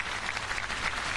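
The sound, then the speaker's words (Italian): Applause from the faithful gathered for an outdoor Holy Mass on the Solemnity of the Sacred Heart at the port of Santa Cruz de Tenerife during a papal visit: dense, continuous clapping from a large crowd, steady throughout. “L'applauso dei fedeli radunati per questa Santa Messa nella solennità del Sacro Cuore di Gesù, l'ultimo evento pubblico del viaggio apostolico di Papa Leone in Spagna.”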